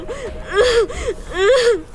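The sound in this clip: A frightened lost child crying in wavering, sobbing whimpers, short cries alternating with longer drawn-out wails and gasping breaths, fairly loud, with no words.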